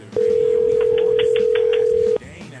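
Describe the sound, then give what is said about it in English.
Ringback tone of an outgoing telephone call: one steady, mid-pitched electronic tone that holds evenly for about two seconds and then stops. “I think people are afraid of answering their phone.”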